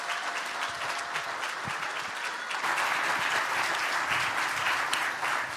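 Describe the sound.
Church audience applauding to welcome a guest speaker at a morning service; continuous dense clapping that swells louder about halfway through and carries on steadily.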